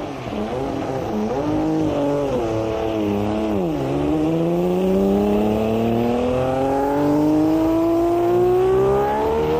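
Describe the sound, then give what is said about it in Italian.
A Ferrari racing car's engine as it enters the track: a loud, buzzing, continuous drone whose pitch wavers and dips briefly, then climbs steadily as the car accelerates. No voices. “Sono le 13.50 quando la Ferrari entra in pista.”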